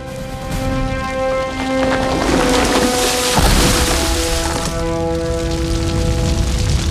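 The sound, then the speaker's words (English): An explosion brings down a massive tree. A loud, sustained rumbling crash swells and peaks with a deep boom partway through, then keeps roaring under steady held tones. “Fire in the hole! The massive tree falls over.”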